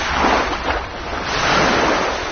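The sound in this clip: Ocean waves at Montpellier make a steady, broad rushing wash that swells and eases gently a few times, with no voices over it.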